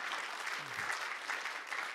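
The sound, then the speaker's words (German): Audience applause breaks out to welcome a newly hired children's leader at a community gathering. It is a dense, steady wash of many hands clapping at an even loudness for the whole two seconds, with no voices standing out. “Ja, wir können gerne einen Applaus geben.”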